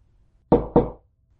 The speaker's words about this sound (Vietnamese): Bên ngoài có tiếng gõ cửa.